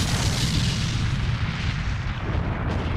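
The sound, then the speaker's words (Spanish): Deep, continuous roar of solid rocket boosters igniting at a launch, a dense rumbling thunder that stays loud and steady for the whole stretch with no pauses. “A T-0, los cohetes sólidos se encendían y no había vuelta atrás.”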